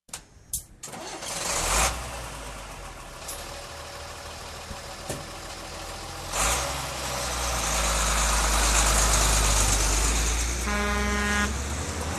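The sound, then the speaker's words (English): A pickup truck engine starts with a few sharp cranking bursts, then settles into a steady low rumble that swells louder around the middle and holds. A brief honk of the horn sounds near the end. “Load the pickup. We're driving across country.”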